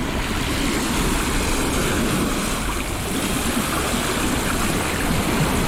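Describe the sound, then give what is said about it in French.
Sea waves crash against cliffs in a continuous, dense roar of surf, loud and steady from start to finish with no clear breaks between surges. “ces vagues qui claquent contre les falaises.”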